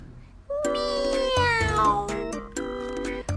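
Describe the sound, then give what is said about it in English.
A small black cat meows for milk: drawn-out, clear, tonal meows that slide slightly in pitch, with a brief pause before a shorter final meow. “Little black cat wants milk too.”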